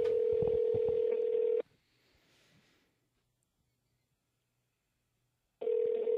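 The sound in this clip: A phone call tone plays through a handset speaker: a steady, buzzy tone for about a second and a half, then a few seconds of near silence before the same tone returns at the end.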